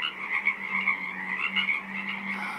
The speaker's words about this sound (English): a 24-hour broadcast of the sounds of a small wetland on Saturna Island, British Columbia.